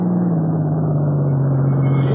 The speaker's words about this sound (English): Sounds like we might have blew a gasket or something.